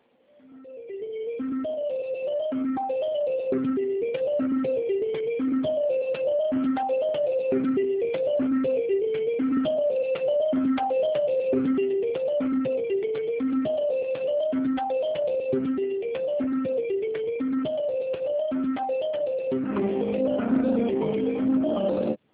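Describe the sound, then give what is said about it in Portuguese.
An electronic telephone tone plays while a call to a hospital is transferred to an operator. A short, bright melodic phrase repeats steadily and evenly for about twenty seconds, turning noisier near the end. “Aguarde, estamos transferindo a sua ligação para um de nossos atendentes.”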